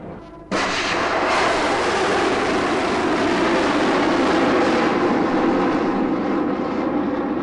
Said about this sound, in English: 4, 3, 2, 1, launch.